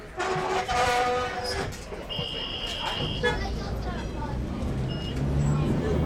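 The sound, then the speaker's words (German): A streetcar runs through the Garden District of New Orleans as floodwater recedes after Hurricane Katrina. A continuous rumbling ride sound carries throughout, with voices early on and a brief high tonal signal in the middle. “im Garden District, ist das Wasser so weit abgesunken, dass die Straßenbahn fahren kann.”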